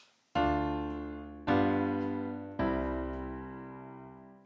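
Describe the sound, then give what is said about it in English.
A 2-5-1 chord progression is played as three chords. Each is struck sharply and rings out with a slow decay before the next. “Oftentimes we get it set up with a 2-5-1 chord progression. Sounds like this.”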